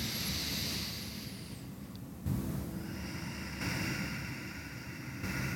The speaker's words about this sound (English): So it's just slow in, slow out.